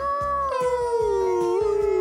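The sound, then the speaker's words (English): A person imitates a howl: one long, loud, wavering tone with rich harmonics that sinks slowly lower in pitch over about two seconds. “Extra howl.”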